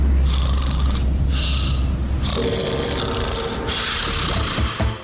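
Snoring, heavy and rasping, with a few long, noisy breaths over a deep, rumbling undertone that stays loud throughout.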